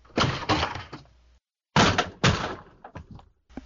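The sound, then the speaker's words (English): A stubborn door is pushed open wide with two bursts of loud thuds and rattling separated by a short pause, then a few lighter knocks. “Okay, now I open wide the door.”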